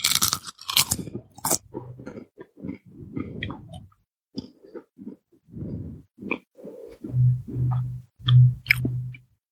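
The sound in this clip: Crunchy chewing of a root vegetable, sweet potato or parsnip, with many irregular crisp crunches and bites, followed near the end by a few low, steady hums from the eater.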